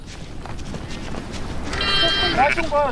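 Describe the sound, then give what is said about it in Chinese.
A lamb that had fallen behind its flock after a commotion bleats several times, high and wavering, in the second half, under a person talking. “凭借多年放牧经验，冷本成功找回了因骚乱而掉队的羊羔。”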